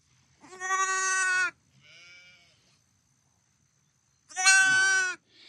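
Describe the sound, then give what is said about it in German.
An injured lamb, attacked and missing an eye, bleats in two loud, harmonically rich cries separated by a pause, each held for about a second. “An dieser Stelle soll ein weiteres Lamm angegriffen worden sein. Es lebt noch, ihm fehlt ein Auge.”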